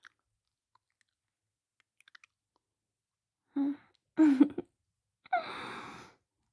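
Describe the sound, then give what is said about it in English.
Faint, wet licking sounds come from a person's mouth in three short bursts. Small clicks precede them, and no one speaks. “I lick.”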